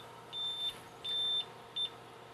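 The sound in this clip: A tire pressure monitor beeping as it is switched on: three high, pure electronic tones, the first two long and the last one short, clear over a faint steady hum.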